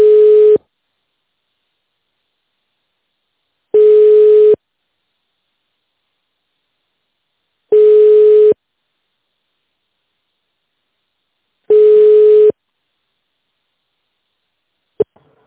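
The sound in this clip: Telephone ringback tone while a call is being transferred to an operator: four evenly spaced, steady mid-pitched tones, each under a second long, separated by long silences. A short click follows the last tone.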